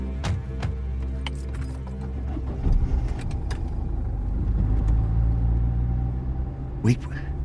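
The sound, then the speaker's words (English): A car drives with a steady low road and engine rumble throughout, with a few faint clicks on top. “Let's just keep driving, then.”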